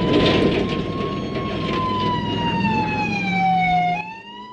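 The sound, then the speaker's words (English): Wailing siren of a police patrol car in pursuit down a winding mountain road, a loud, steady tone drifting gradually lower in pitch over a vehicle rumble, then cutting off sharply near the end. “A patrol car motors down a mountain road.”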